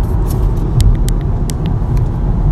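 A car with a DSG gearbox on a test drive gives a loud, continuous low rumble of engine and road noise. A few faint, high ticks sound over it.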